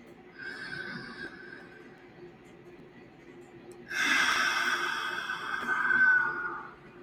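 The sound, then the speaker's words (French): Deep breaths are taken slowly, with breathy, hissing airflow. A softer breath comes first, then a much louder, longer one after a pause. “Je vous invite maintenant, si vous le souhaitez, à prendre 3 profondes respirations.”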